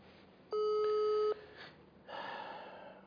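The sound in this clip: Ring tone of a telephone call that goes unanswered: a single steady beep lasting under a second, followed by soft, breathy noise.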